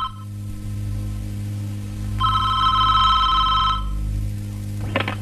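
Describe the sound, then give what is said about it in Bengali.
A telephone rings in one bright, warbling burst of about one and a half seconds, over a steady low hum, with a brief faint sound just after it. “এই ফোনটা একটু ধর না রে।”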